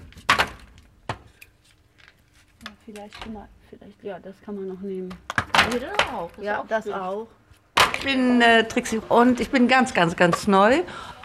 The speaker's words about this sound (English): We need to go and chop some wood, so we can build up a good fire. You need a lot of embers to bake bread. So let's go and chop the wood.